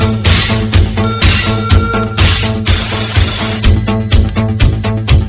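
A telephone ringtone sounds loudly inside a party DJ mix, bright electronic tones repeating in a steady pattern over a thumping beat, with no talk.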